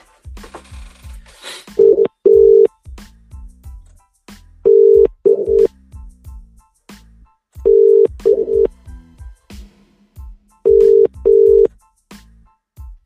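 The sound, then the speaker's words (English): A telephone line gives out its ringing tone as a call is placed: four evenly spaced double rings, each a pair of steady mid-pitched buzzes, with soft low thumps in the gaps between them. “Sorry, I'm a bit slow dialing this one.”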